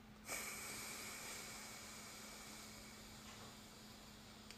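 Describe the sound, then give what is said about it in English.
A long, steady inhale through the right nostril during an alternate-nostril breathing exercise: a soft, airy hiss that begins abruptly and holds evenly for about four seconds. “And then wait, keep it closed. Then breathe in through your right nostril. And then plug it.”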